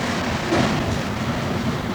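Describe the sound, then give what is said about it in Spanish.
Steady rumble of a Mexico City metro train running underground, heard from the last carriage: a dense, continuous roar with no distinct events and no voices. “Cuatro somos los que estamos en este último vagón del tren. La naranja serpentina empieza a recorrer el subsuelo”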